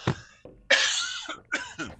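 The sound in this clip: Coughing from a tickle in the throat: a few harsh, throaty bursts, one of them drawn out and rasping, separated by short pauses, with no talk.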